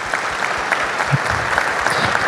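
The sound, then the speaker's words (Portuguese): Applause from an audience at a couples' camp gathering: steady, dense clapping that holds at an even level from start to finish, with no talk over it. “vamos dar um salve de palmas pro Marco Aurélio, que tá fazendo aniversário.”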